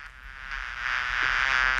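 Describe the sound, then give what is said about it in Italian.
Buzzing of worker bees forms a dense, steady drone with a rough, reedy texture. It holds throughout and grows slightly louder toward the end. “Sapete chi produce un ronzio simile? Bravi, le api operaie.”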